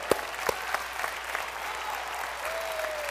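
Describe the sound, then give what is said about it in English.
Congregation at a church service applauding its pastors, a dense, steady patter of hand claps that fills the whole clip, with a few sharper claps near the start. “Give the Lord a hand clap for them.”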